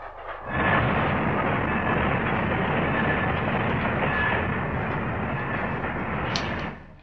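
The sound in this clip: A train arriving at a station in a radio drama rumbles in with a dense, steady roar that swells in quickly, holds level for several seconds, then drops away at the end.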